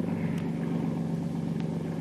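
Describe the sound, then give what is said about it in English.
A small motorboat's engine gives a low, steady droning hum on the water as the throttle is eased to stop. The rumble is continuous and even, with no voices over it. “apply a little less gas to this tub so as we can stop in the water.”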